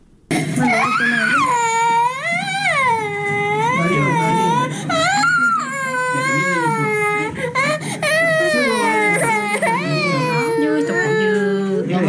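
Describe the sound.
Children crying from hunger during a food shortage, with wails that rise and fall in pitch and continue almost without a break, loud and strained.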